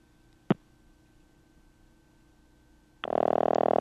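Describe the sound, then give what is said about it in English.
Telephone ringback tone heard through an old Automatic Electric step-by-step switch after dialing 0 on a rotary line: a single sharp click, a quiet pause, then a loud, steady buzzing ring that starts abruptly and continues to the end. “Wow, cool. That is a ring. I wonder if I'm ringing the guy in his house.”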